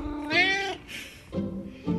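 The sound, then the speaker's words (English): A male cat meows for his dinner at feeding time, standing by his food: a few loud, drawn-out harmonic meows in quick succession, with no talk over them. “So he's walked me over to where his food is because he remembers where his food is. And he's like, excuse me, why aren't you feeding me?”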